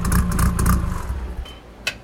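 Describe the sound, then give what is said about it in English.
A turbocharged 2.3-liter engine in a 1983 Ford Ranger mini truck revs against its rev limiter, giving a loud, low, choppy rumble for about a second that then fades, with a short sharp pop near the end. “If you haven't paused or guessed by now, it's a 1983 Ford Ranger with a 2.3 turbo.”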